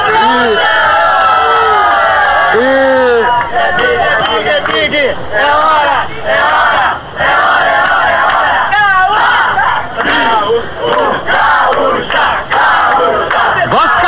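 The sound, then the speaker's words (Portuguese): A large crowd of journalists and staff sings Happy Birthday at the Marquês de Sapucaí in Rio de Janeiro, marking Rádio Gaúcha's 70th anniversary. Many voices carry the tune in a loud, continuous mass that runs through the whole stretch. “Neste momento, a Embratel, a Telerge, a Rio Tour, a Liga Independente, os jornalistas da Rede Manchete, da Rádio Nacional, do Jornal O Globo, cantam o parabéns a você, Ranzolin.”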